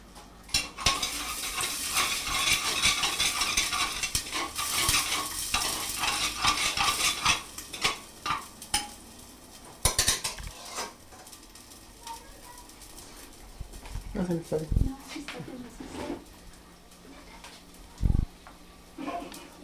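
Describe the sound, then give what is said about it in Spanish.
Onion frying and browning in a pan, stirred with a wooden spoon at a festival cooking session: a continuous sizzle with scraping and clinking, busier in the first half, then quieter with a few sharp knocks. “la cebolla. Se le agrega la cebolla a que se dore.”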